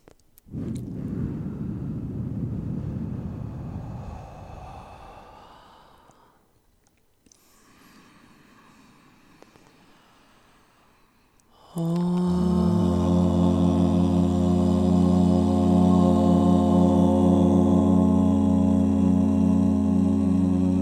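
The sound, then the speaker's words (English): A deep inhale, heard as a long breathy rush, then a pause before a steady chanted om begins. The om is a full, sustained hum that holds loud and even for about nine seconds. “Let's do one breath and then we'll do an om.”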